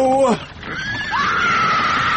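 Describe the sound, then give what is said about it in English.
A pony whinnying: a short loud cry that drops in pitch, then a long, steady, shrill high-pitched call. “She stepped out into the path of the pony.”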